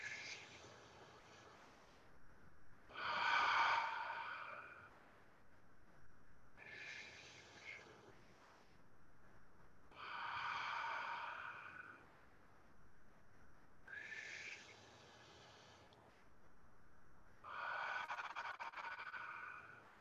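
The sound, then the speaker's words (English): Slow, deep breathing in and out during a guided relaxation: six soft, airy breath sounds spaced evenly, each swelling and fading, with quiet gaps between them. “And then breathe out. and breathe in relaxation.”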